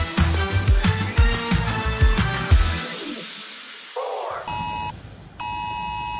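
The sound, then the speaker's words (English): Emergency alert system test tone sounding from mobile phones during a first nationwide test in the north of Ireland: a short rising tone, then two loud, sustained harsh beeping bursts separated by a brief gap. “That's the sound of the new emergency alert system, which was played out across millions of mobile phones on Sunday afternoon in the north of Ireland in its first nationwide test.”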